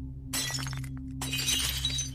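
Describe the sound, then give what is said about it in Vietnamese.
A jar dropped and shattering at night as a story sound effect, a loud spray of breaking glass with scattered tinkling fragments, heard over a steady low drone. “buông cái hũ rơi xuống đánh xoảng một tiếng. Âm thanh đổ vỡ vang vọng trong đêm.”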